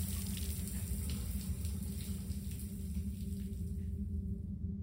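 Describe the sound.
Water running from a tap while a razor is rinsed, a steady, soft rushing stream that continues unbroken, with no voices.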